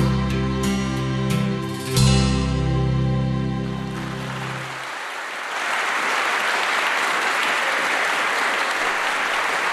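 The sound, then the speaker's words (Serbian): A song performed at a school youth program for World Theatre Day ends in sustained, ringing chords. Then steady applause from the audience takes over and continues evenly through the second half. “evo čujemo aplauz”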